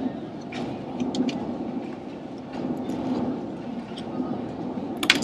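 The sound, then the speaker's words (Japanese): Ambience in the Shinkansen waiting area at Tokyo Station, where many people stop for coffee: a constant low rumbling murmur with faint scattered clicks and clinks throughout. “今は東京駅の新幹線の待合場なんですけど、”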